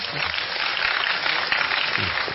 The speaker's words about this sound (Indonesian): Tepuk tangan untuk Pak Kades.